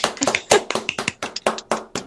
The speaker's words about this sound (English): All claps for Danielle. Good job, Danielles.